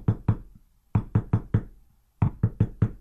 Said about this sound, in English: you want to hear a knock like this, knock, knock, knock, to let your friend in